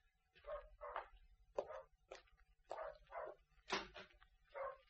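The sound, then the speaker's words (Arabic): A dog barking repeatedly, a run of short, sharp barks with a slightly whiny edge, spaced at uneven intervals and heard alone without voices. “وبعدين في ابن الكلب اللي بيهوهو ده، امشي امشي يا ابن الكلب، بدك الأرض انت واصحابك.”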